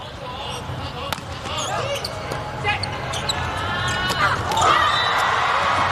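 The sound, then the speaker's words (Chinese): Volleyball serve during a match against Italy: a few sharp ball smacks pop out over a loud, steady crowd roar, with a commentator talking throughout. “王媛媛发球”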